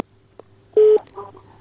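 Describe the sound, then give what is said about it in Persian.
A single short telephone beep marks a dropped call: a brief, steady mid-pitched tone lasting a fraction of a second. Faint line noise sits around it. “فکر کنم که تماس قطع شده”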